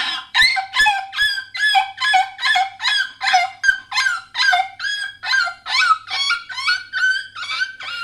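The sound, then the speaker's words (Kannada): A puppy yelps in pain after being hit by an auto-rickshaw, giving a steady, rapid string of shrill, high-pitched cries at about two per second, each loud and sharp, with no talking. “ಒಂದು ನಾಯಿ ಮರಿ ಆಟೋಗ್ ಸಿಕ್ತು. ಅದು ನೋವಿಗೆ ಹೀಗೆ ಕೂಗ್ತು.”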